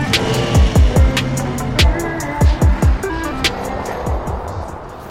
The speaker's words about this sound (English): I've never been in a Ferrari before. It's a Lamborghini.